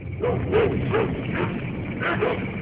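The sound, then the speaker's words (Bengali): A few short dog barks and yips, from one or two dogs in the distance at night around a house, come in separate bursts over a steady low background hum. “দূরে দু একটা কুকুর ডেকে উঠল।”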